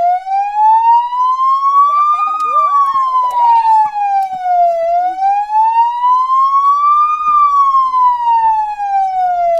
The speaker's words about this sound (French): Sirène que vous entendrez toujours pour les véhicules de police.